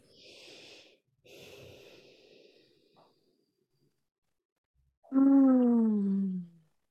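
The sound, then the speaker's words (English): A group in an online coaching session takes deep breaths: two long, airy breaths, then a louder voiced sigh that falls in pitch. “So everyone takes a deep breath so that we can land in the space.”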